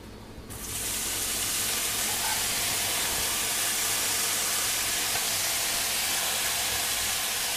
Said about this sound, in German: So, eine schöne Pfanne vorheizen. bisschen Olivenöl rein. Jetzt braten wir die Jetzt schönen Austernpilze. Die Austernpilze habe ich ein bisschen in Streifen geschnitten.